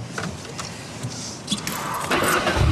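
A car engine starting: a few faint mechanical clicks and knocks, then a low rumble and broad noise that build and grow louder toward the end.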